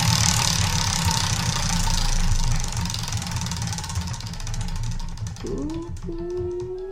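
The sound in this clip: A spinning roulette wheel sound effect for a scary-story game: a rapid run of ticks over a steady rumble that thins out toward the end, followed by a brief tonal sting.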